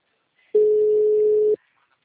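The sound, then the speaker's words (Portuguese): A single steady telephone tone while a call is being placed, a plain mid-pitched hum lasting about one second and heard alone against silence. “Tô ligando.”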